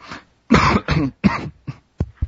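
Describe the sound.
Coughing from someone whose drink went down the wrong way: a loud fit of several harsh, choking coughs in quick succession, breaking off with short gaps and ending in a couple of sharper, clipped bursts, with no talking.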